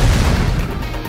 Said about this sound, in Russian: Секундой позже оглушительный взрыв на несколько секунд лишил меня слуха.